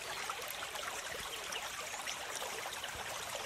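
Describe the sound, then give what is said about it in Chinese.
Babbling stream water flows in a steady, continuous rush, an even hiss of trickling and splashing with no voices and no breaks. “专心地听着潺潺的流水声，慢慢让自己放松下来。”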